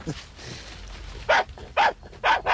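A dachshund barks three times, short and sharp at a regular pace, after a quieter opening with faint background rustle.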